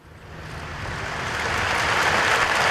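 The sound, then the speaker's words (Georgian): Applause from thousands of people gathered in central Barcelona after a minute of silence for attack victims: a dense, rain-like wash of clapping that steadily swells louder over the whole stretch. “წუთიერ დუმილს მოჰყვა შეკრებილების ტაში და შეძახილები არ მეშინია.”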